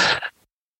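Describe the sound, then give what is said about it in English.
A quick breath blown out through the mouth, as if blowing out a candle, demonstrated as a calming breathing exercise: one short, breathy burst of air that fades within half a second, with no talk. “inhale quickly through the mouth and then exhale long through the mouth as though they're blowing out a candle”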